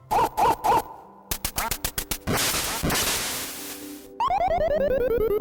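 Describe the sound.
Electronic quacking and retro sound effects from a duck-shooting video game with a smug dog: three short warbling quacks, a run of rapid blips and a noisy burst, then a stepped tone falling in pitch.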